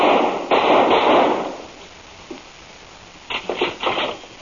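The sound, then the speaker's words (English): A gunshot: a sharp, loud bang whose noisy tail hangs for about a second, followed after a quiet pause by a few more quick, sharp cracks. “I just shot Dr. Scars.”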